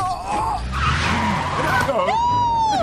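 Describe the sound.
A car skids to a stop, its tires squealing in sharp, wavering high-pitched streaks over a constant loud rumble of road and engine noise.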